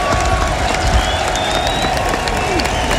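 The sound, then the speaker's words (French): A crowd cheers and applauds at the end of the Marseillaise, sung by a female voice at a live event in Mayenne: a steady, dense roar of clapping and shouting holds at an even level throughout. “Et la clameur du public.”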